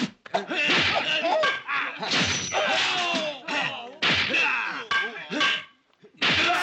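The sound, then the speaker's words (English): Staff strikes in a kung fu film fight scene: repeated sharp thwacks, slams and thuds come in quick clusters over a dense, loud film mix with voices, broken by a few brief pauses. “this is another sequence where, yeah, I love the sound effects for all of the staff hits, too.”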